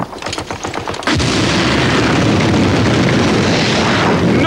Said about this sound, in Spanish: El sargento Horvath lanza otra granada al interior del búnker.